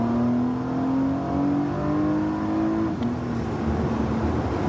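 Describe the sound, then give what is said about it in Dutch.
A Porsche Panamera 4S E-Hybrid, a four-wheel-drive plug-in hybrid, revs with a steady engine note that climbs slowly in pitch, then drops sharply about two-thirds through and settles at a lower, rougher hum. “Porsche Panamera 4S e-hybrid. Ja, veilige vierwielaandrijving.”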